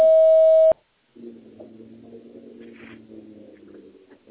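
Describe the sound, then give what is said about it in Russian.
A voicemail beep signals the start of recording: one steady, clear tone lasting under a second. It cuts off into brief silence, followed by a low, continuous droning sound. “После сигнала, пожалуйста, запишите свое сообщение.”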